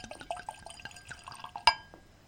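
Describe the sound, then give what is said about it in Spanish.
Wine poured from a bottle into a glass: soft trickling and small dripping splashes, quiet and uneven, with one sharp glassy clink near the end. “Lo primero quizás sería servir el caldo que hemos traído, el vino que ha tenido el gusto de traer Mica”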